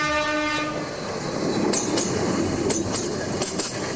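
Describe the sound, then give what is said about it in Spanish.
A narrow-gauge tourist train passes a station on a 19th-century line between León and Bilbao, built for coal. A sustained horn tone opens over a steady rolling rumble, then a few sharp wheel clacks punctuate the noise. “Así suena al paso de una de las estaciones del recorrido entre León y Bilbao, o viceversa, sobre una línea creada a finales del siglo XIX”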